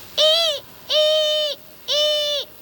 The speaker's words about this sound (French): On dirait des ululements. Une bestiole qui ulule la nuit dans les airs sans que je puisse entendre ses battements d'ailes, c'est forcément une chouette effraie.